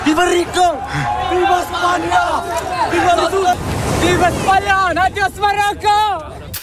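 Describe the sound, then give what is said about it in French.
Crowd of migrants shouting and cheering as they arrive by sea at Ceuta after crossing the border from Morocco into Spain, some of them swimming. Loud voices chant repeated slogans over a constant wash of surf and background babble. “Ce que vous entendez, c'est l'arrivée par la mer de milliers de migrants qui ont franchi la frontière entre le Maroc et l'Espagne, certains à la nage.”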